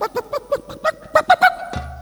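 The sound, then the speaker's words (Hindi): A voice imitates a hen clucking with a quick series of short, nasal, squawking calls that grow louder toward the end, followed by a low steady hum. “हम तुम्हें गाली पकेंगे ऐसे अपनी मुर्गी वाली भाषा में।”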